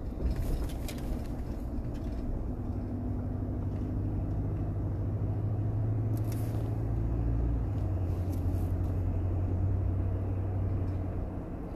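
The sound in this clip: A car is being driven, giving a continuous low rumble of engine and road noise that stays even in loudness throughout, with no talking.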